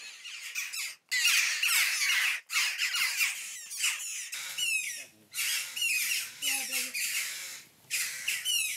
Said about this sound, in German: Schwächere Stimmbänder, aber mindestens genauso hungrig. Das Mäuse-Bussard-Küken.